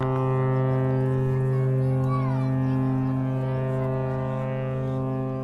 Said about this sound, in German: So klang es bis vor kurzem auf St. Helena Island. Das mächtige Horn der RMS St. Helena kündigte das stets sehnsüchtig erwartete letzte königlich-britische Postschiff an.